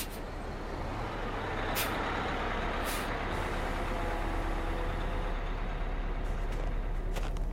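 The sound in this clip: A large loaner vehicle pulls up and stops with a steady, loud engine rumble and a few short air-brake hisses.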